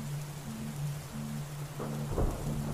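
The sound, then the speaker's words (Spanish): Rain and thunder: a steady wash of falling rain with a deep thunder rumble swelling near the end, beneath a low intermittent humming drone. “protegerte de la fría lluvia, no asustarte por cada trueno”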